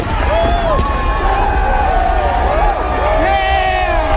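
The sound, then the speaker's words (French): Crowd of Trump supporters outside the US Capitol as barriers give way and police fall back: a continuous, loud hubbub of many voices, with scattered shouts and whoops rising above the mass of noise. “Dans la foule, devant les marches qui mènent euh, à l'entrée de ce bâtiment, les barrières cèdent, la police commence à reculer, et là, les premiers partisans de Trump entrent dans le bâtiment.”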